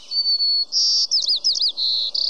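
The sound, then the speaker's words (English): Song of a white-crowned sparrow, a bird of the western United States heard in spring and summer: a clear, steady whistled opening note, then buzzy, warbling trills and a final run of rapid buzzy notes, loud and alone. “This is the song of a white-crowned sparrow. Some describe it as, see me, pretty, pretty me.”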